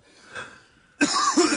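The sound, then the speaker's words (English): A person coughs: a softer rough sound, then a louder, harsher burst of coughing with a couple of peaks, no talk over it. “Well, with my coughing.”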